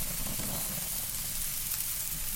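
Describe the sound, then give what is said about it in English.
Chicken on wooden skewers sizzles on a grill with a steady, even crackling hiss that holds constant throughout, without pauses or voices. “All right, on goes the chicken.”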